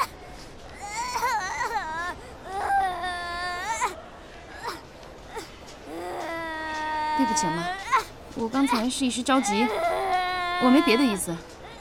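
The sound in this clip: A young child cries hard after getting a fish bone stuck in the throat, giving loud, continuous wailing sobs that rise and fall in pitch, with brief catches of breath between cries.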